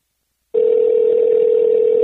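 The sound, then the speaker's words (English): Telephone ringback tone from an unanswered call, heard as one steady, unbroken electronic tone lasting about one and a half seconds, loud and alone after a moment of silence. “Okay, so Andrea wasn't picking up.”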